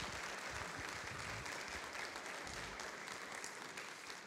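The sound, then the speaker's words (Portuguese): A church audience applauding during a Methodist worship service: steady, even clapping that is fairly faint and continuous throughout, with no talk over it. “Você pode aplaudir o Senhor por essa bênção?”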